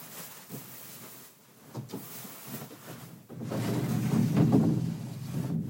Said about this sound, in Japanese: 扉も閉めました。